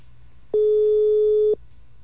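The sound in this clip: A telephone line tone sounds while a call is being placed: one steady mid-pitched tone lasting about a second, rising abruptly out of a faint low hum and stopping just as sharply.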